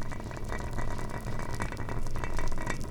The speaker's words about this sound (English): in an interesting manner and steam to come out, and it sounds like this. You can also hear bubbling rice steam.